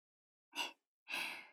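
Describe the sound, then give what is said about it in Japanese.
Slow, deep breathing in and out, calm and unhurried: a short breath followed after a pause by a longer, softer one that fades gradually, with no talk. “ゆっくり息を吸って、ゆっくり吐いて。また吸って、また吐いて。”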